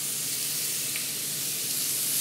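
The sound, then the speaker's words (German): Beef steaks for tagliata di manzo searing in a pan make a steady, bright sizzling hiss, continuous and even throughout. “Steaks für die Tagliata di Manzo, ein italienischer Klassiker.”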